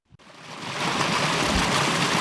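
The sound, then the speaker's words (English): Spring water bubbling up through the ground at Mundjawoy in Arnhem Land, Northern Territory: after a brief click, a steady, dense rush of flowing water rises and holds evenly to the end. “spring water bubbling up through the ground is renowned across Arnhem Land.”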